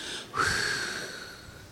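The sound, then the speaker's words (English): A group takes a deep breath together during a prayer gathering: one long, soft inhale that rises suddenly, then slowly fades, faint and airy. “So let's take a deep breath and feel all the things.”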